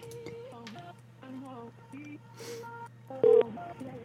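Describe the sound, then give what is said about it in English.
Telephone dialing tones: a rapid series of short dual-tone beeps at changing pitches over a low hum, with one louder, sharper beep near the end. “Let's call him.”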